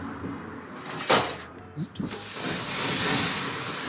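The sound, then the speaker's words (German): Hissing of fat and meat-and-pepper sauce dripping onto a grill as the flames flare up. After a few brief knocks, a broad, steady sizzle swells and holds at a moderate level. “Die Flüssigkeit, das Fett, was da runtertropft, sorgt dafür, dass die Flammen sofort hochkommen.”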